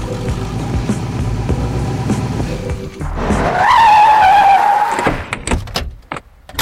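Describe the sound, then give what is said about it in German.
A Cadillac car's engine rumbles, then its tires squeal in one long, loud, high-pitched skid that holds for over a second before cutting off. “Hier ist mein Wagen. Ein Cadillac.”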